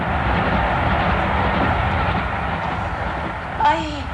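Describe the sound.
A freight train passes by, a dense, steady rumble and roar that fills the whole clip at an even, loud level, with a brief extra swell near the end.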